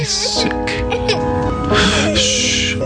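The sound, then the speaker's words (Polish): A child cries in a video game trailer, with loud, strained, wavering sobs and whimpers that break off and restart several times. “He won't stop crying. On nie chce przestać płakać.”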